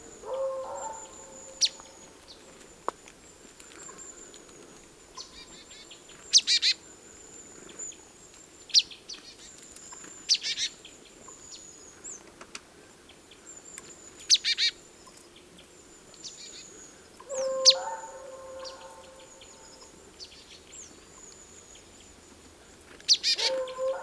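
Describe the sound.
Small tit cracking a seed in tree branches: many sharp, dry taps and clicks at irregular intervals, mixed with high, thin bird chirps and calls throughout.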